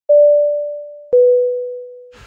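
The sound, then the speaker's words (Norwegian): Phone message notification chime made of two sustained tones, each starting sharply and fading slowly, with the second a little lower in pitch than the first. “Åh, nå fikk jeg akkurat en melding”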